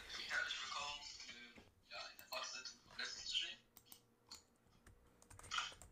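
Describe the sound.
Typing on a computer keyboard while writing a chat message, heard as faint, irregular runs of light key clicks with brief pauses.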